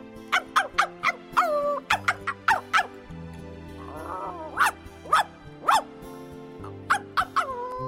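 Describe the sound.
A dog barking furiously around a well on an island: many sharp, loud barks in an uneven rhythm, with a brief rougher sound in the middle.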